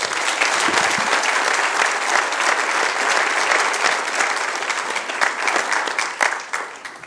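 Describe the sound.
Audience applause welcoming a guest speaker to a church service, a dense, steady clapping that holds for several seconds and thins slightly at the end.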